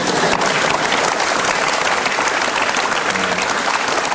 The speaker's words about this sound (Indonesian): Teman-teman itu ingin tepuk tangan Bapak sekarang.